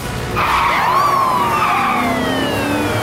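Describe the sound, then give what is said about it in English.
A police escort siren wails behind a bus, loud and sustained over road noise, its pitch sliding steadily downward. “The police escort is now behind the bus.”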